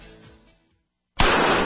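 A .44 Magnum gunshot strikes a Trauma Max hybrid Kevlar bulletproof vest in a single loud, sharp blast after a moment of silence, and its harsh roar carries on to the end.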